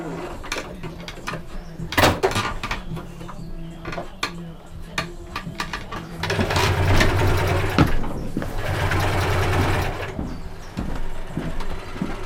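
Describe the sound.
A sewing machine stitches a cushion in a sewing room, whirring low and steady in two runs. Clattering handling noises and people talking are heard around the runs.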